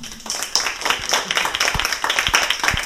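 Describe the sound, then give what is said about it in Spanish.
Applause from people clapping after a poem recital at a workshop, with many quick, overlapping claps forming a steady patter at moderate loudness throughout. “Esto se merece un aplauso, ¿no?”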